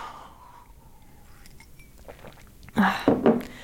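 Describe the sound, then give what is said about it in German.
A person takes a sip of a drink, a quiet pause followed by a few short, loud slurping and swallowing bursts near the end. “Ich trinke mal einen Schluck. Es ist wirklich Trockenluft, ja.”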